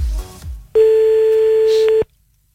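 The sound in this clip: A telephone tone sounds after a call is cut off, one steady mid-pitched beep held for just over a second, following a short burst of muffled noise and ending abruptly.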